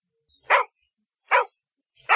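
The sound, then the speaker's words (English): A dog gives three sharp, short barks, evenly spaced with silent gaps between them, the last one cut off at the end. “This is a very nice dog, the woman said.”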